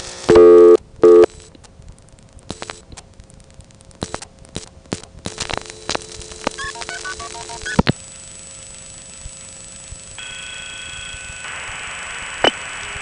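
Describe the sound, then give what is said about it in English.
Off-frequency Greenville multifrequency tones dialing 179211, a vacant code in Trinidad. A loud opening tone burst gives way to scattered clicks and line static, then a quick run of short stepped tones, and steady tones hold near the end. “Here's the vacant code recording in Trinidad by dialing 179211. This call includes the off-frequency Greenville MFs that managed to still work.”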